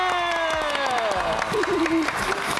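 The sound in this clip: Audience applause and cheering at a school award ceremony, scattered claps and crowd noise under a loud gliding tone that slides steadily downward.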